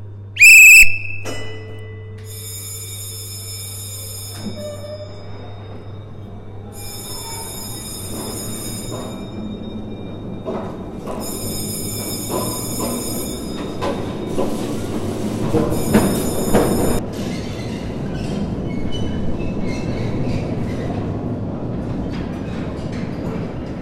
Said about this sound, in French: Voilà, nous allons euh, utiliser le train de l'époque, donc de 1945. C'est une locomotive Alstom qui nous tracte jusqu'à l'opposé de la colline.